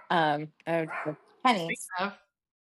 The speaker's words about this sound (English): it's the murder bot. My neighbor has come home. That bark definitely says murder.